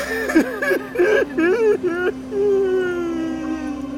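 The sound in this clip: A man sobs in broken, wavering cries, several short choked bursts followed by a long drawn-out moan that trails off and fades.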